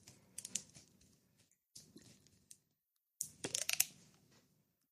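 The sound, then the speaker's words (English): Crinkling, tearing plastic as the seal is ripped from the top of an Old English 40-ounce plastic bottle, heard in three separate bursts of crisp crackling, the last one the longest and loudest. “Did you hear the plastic ripping from the top of this Old English plastic bottle?”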